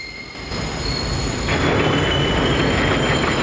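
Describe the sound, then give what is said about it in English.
A passenger train moves into a tunnel with a loud, dense rumble of wheels on rails and steady high-pitched squeal tones above it. The roar swells and thickens partway through, and no voices are heard. “the train is drawn into the same tunnel he saw when he was dead.”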